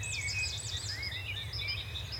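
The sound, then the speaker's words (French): Wrens, warblers, tits and blackbirds call and sing beside a small apple orchard next to a garden on a clear morning: many quick, high chirps and whistled sweeps overlapping, fairly faint, over a steady low rumble. “Les mésanges. Voilà, et les merlettes, les merles qui viennent gratter un peu partout. Je suis entourée d'oiseaux, ça c'est sûr.”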